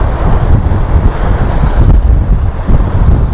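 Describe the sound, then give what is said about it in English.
Wind buffets the microphone on a hillside while climbing out of a valley, a loud, steady low rumble with gusty surges throughout and no voices. “However, I am right back in the wind up here, which is not too good, because I'm climbing out of the valley now,”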